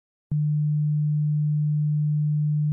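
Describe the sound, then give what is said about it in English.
A pure sine wave tone starts abruptly after a short silence and holds one steady, low pitch at constant loudness for about two and a half seconds. “Now, a triangle wave can be actually made out of sine waves, which are the purest wave, in a sense, which sound like this.”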